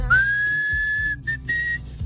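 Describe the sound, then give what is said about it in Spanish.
Melodic whistling at the start of a rock song: one long held note that glides up slightly at its onset, then two shorter notes at the same pitch, fairly quiet over a soft low background. “Y empieza chiflando, y así como romanticón, empezaba la rola.”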